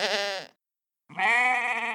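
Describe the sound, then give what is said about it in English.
A sheep bleating twice: a wavering, nasal bleat, a half-second of silence, then a longer, steadier bleat held to the end, both loud and alone. “Sheep. Sheep wool is used in clothing, like sweaters, mittens, and pants.”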